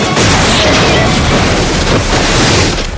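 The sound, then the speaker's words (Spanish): A gunshot in a Western shootout blows apart a bandit's saddlebag. It comes as a loud, dense burst of noise that fills the whole stretch without clearly separate shots. “El hombre de barbacana dispara contra la alforja de otro bandido.”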